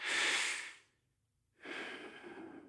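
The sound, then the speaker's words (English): Two soft, deep breaths during a guided prayer meditation, each a long airy rush of air separated by a clear silent pause. “So to begin, let's just start with a few deep breaths.”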